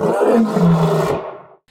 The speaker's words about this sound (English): You guys probably recognize that lion roaring.